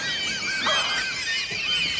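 Shrill bird calls from a flock flying in through a large hole and dive-bombing a crouching woman: a dense, continuous tangle of high chirps and squawks overlapping throughout, with no pause.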